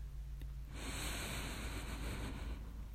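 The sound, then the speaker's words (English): A slow, deep breath is drawn in through the nose. After a short quiet pause comes a soft, steady airy hiss that lasts over two seconds, faint and alone. “I want you to take some nice, slow, deep breaths in through your nose and out through your mouth, okay? Deep breath in.”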